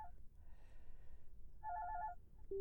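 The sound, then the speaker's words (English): Faint electronic phone ringtone of an incoming call: a short pulsing burst of bright beeping tones, followed a moment later by a single steady tone, over a quiet background hum. “I'm getting a phone call”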